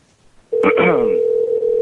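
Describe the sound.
Telephone ringback tone during a prank call: a steady, loud, unbroken tone begins after a short quiet stretch, with a voice briefly heard over its start.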